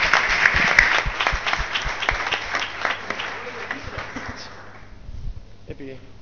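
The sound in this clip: Applause from the audience at a hacklab talk on cyberpunk: loud, dense clapping with voices underneath that thins out and fades near the end, leaving a few people talking.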